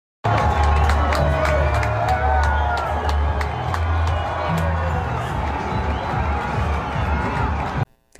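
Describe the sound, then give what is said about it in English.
A crowd at the NCAA Wrestling Championship in Tulsa cheers loudly for Trump, with sustained shouting, whoops and clapping that stay at full level before cutting off abruptly at the end. “Trump was, meanwhile, cheered on when he went to the NCAA Wrestling Championship in Tulsa.”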